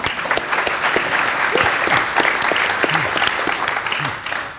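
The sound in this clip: Enthusiastic applause greeting a journalist and moderator at a public forum on small towns, loud dense clapping that stays strong throughout and tapers slightly at the very end.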